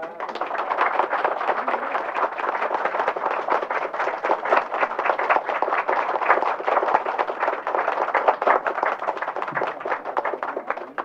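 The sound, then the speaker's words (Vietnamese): An audience claps their hands to welcome a teacher, a dense, steady wash of many hands that stays evenly loud throughout without pause. “Phần đời chút xíu, bây giờ quý vị vỗ tay đi.”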